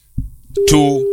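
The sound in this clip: A phone dial pad gives off an electronic tone, a single clear beep held steadily to the end after a few brief, softer sounds.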